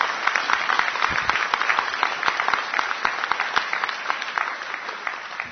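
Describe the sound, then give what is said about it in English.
Applause from an audience thanking a presenter at a meeting: a steady round of many dense claps that holds evenly throughout and eases slightly at the end. “Big round of applause.”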